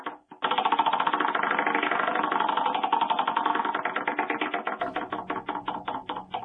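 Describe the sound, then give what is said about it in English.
A prize wheel spins with a rapid, steady stream of loud clicking ticks from its pointer, which gradually space out and slow toward the end as the wheel loses speed. “All right, I'm going to spin the wheel.”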